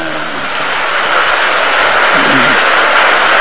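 An audience claps for actors at a stage performance, a dense, steady wash of applause that stays loud and even from start to end with no voices on top.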